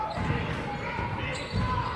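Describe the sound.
A basketball being dribbled on court during a women's game, a few dull low thuds under steady play-by-play commentary.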